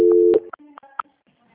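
Telephone line tones sound during a call transfer: a steady tone lasts briefly, then a few short beeps at differing pitches follow before the line goes nearly silent.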